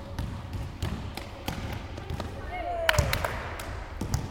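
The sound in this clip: Rhythmic thuds of basketballs being dribbled at a Muslim women's sports team practice in Watford, steady repeated bounces under people talking.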